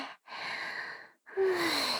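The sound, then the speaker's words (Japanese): Heavy, out-of-breath panting: a few long, breathy exhalations separated by brief silent gaps, soft and airy with no words. “主人様、息切れ激しいですね。”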